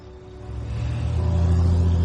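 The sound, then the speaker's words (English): A car drives off, its engine rumble swelling steadily louder over about two seconds as it pulls away. The low, throaty tone stands alone without voices. “She drives off.”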